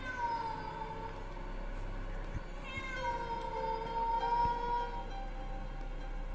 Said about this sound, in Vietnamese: Vừa quay lại thì cùng lúc lại có tiếng con mèo ở trên giường.